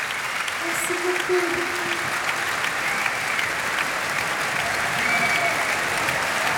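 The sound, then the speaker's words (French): A standing ovation from an audience in Marciac: dense, steady applause of many hands clapping at once, loud and continuous throughout with no break. “Et le public marciaquois attentif, en fait, lui fait maintenant une standing ovation.”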